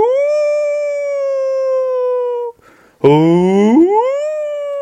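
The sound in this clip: A human voice imitates a wolf howling at the moon with two long, loud, tonal howls separated by a short pause. The first is held steady; the second starts lower and rises in pitch before levelling off.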